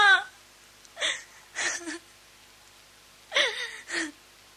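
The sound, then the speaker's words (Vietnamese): Sobbing and whimpering in several short, wavering bursts, each breaking off into a quiet gap before the next catches in the throat. “Mày khóc cái gì hả?”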